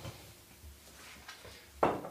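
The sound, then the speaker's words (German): A vacuum-sealed plastic package of Greek Kalamata olives in oil and sea salt is opened: faint plastic handling and light knocks, then one sharp crackling pop near the end; no voices. “Die sind eingeschweißt. Richtig. Und die werde ich jetzt mal aufmachen.”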